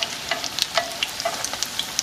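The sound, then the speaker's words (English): Food fries in a pan on an industrial-grade burner set to medium-low heat: a continuous hiss of sizzling oil broken by many sharp, crackling pops. “I need those little sides fried, these little top ones.”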